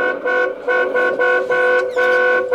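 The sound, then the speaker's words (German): A car horn honking repeatedly while driving alongside a police car, giving a fast series of short, steady, bright tones with brief gaps between them, and no talking. “Und hupe, hupe. Mach ich.”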